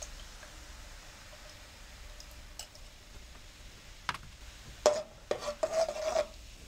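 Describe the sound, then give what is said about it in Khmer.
A spoon stirs coconut cream with cane sugar in a pot: soft, faint rasping that turns into a few scrapes and light knocks, which get louder toward the end. “រំងាស់វាបន្តិចដើម្បីឲ្យខ្ទិះរបស់យើងវាឆ្អិនបន្តិច”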